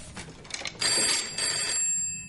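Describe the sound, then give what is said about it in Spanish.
A telephone bell rings in a room in a 2014 comedy-thriller drama. It is a bright, sustained electronic ring that swells partway through and then leaves fainter ringing tones lingering to the end. “El teléfono está en la habitación donde está Kaplan y lo mira asustado.”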